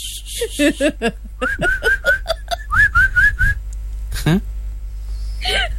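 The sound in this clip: A person whistles a run of short, bright notes, many of them with a quick upward slide, in a lively repeated rhythm broken by brief chuckling.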